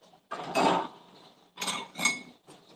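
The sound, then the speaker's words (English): Dishes and cutlery clink and clatter as a woman washes the previous day's dirty dishes in a kitchen sink, in a few separate bursts of rattling with short quiet gaps between, no talking. “First, she's doing her dishes from yesterday because she did not feel like doing them yesterday.”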